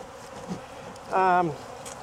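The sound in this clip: Honey bees buzz around a kept hive: one short, loud, droning buzz swells up briefly and then drops slightly in pitch as it fades, with a quiet background on either side.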